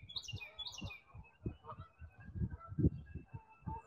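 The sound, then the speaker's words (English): Birds chirp outdoors in a light breeze. A couple of quick high chirps come early, then faint calls continue over irregular low thumping rumble, all quiet. “I hear the birds chirping, geese.”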